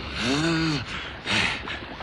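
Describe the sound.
A creature breathes deeply with difficulty, voiced by a person: a long, strained gasp followed by a few shorter rasping breaths, with no talking.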